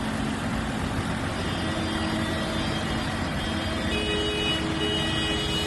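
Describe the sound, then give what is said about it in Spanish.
Tractors drive slowly along a highway during a farmers' protest in La Rioja. A continuous engine rumble with a low drone and faint tonal whine holds steady and unbroken at an even, moderate loudness. “Este es el sonido de las carreteras en La Rioja esta semana. Tractoradas que han cortado autovías”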